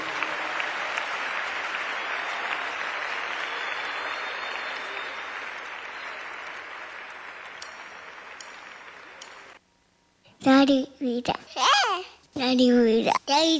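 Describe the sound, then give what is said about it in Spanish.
Sustained audience clapping, a thick even patter that thins and stops, followed after a short silence by people speaking. “Le más fuerte las palmas a él.”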